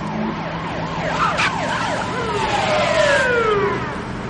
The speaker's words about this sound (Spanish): Al momento, varios coches de policía llegan a la casa mientras ellos se alejan por otra calle.